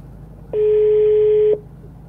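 A telephone call rings out unanswered, heard as a single steady electronic ringback tone lasting about one second, standing alone against a quiet line hiss before and after.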